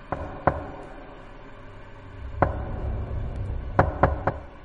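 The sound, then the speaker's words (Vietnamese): Knocking on a door at night, several sharp raps in irregular groups: two early knocks, one alone in the middle, then a quick cluster of three near the end, over a faint low background. “tiếng gõ cửa đều đều ở bên ngoài vẫn cứ dội lại”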